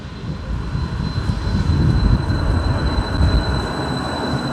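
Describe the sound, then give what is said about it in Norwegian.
A light rail tram heads toward the airport in Bergen, giving off a steady, loud low rumble with a thin, constant high whine above it and no voices. “Politiadvokat Jørgen Henriksen går på Bybanen i retning Flesland flyplass”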